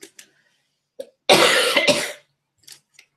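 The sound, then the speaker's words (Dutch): Harsh coughing from someone with a winter virus, a loud burst of two rough coughs run close together, surrounded by a few faint breaths and small mouth sounds. “Excuus voor mijn gehoest, het is eind van de winter.”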